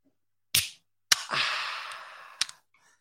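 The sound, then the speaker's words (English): A bottle of beer is opened with a sharp click, then a snap, then a long fizzing hiss that slowly fades and ends in another small click. No one speaks. “Well, just to say, I'm going to open this beer.”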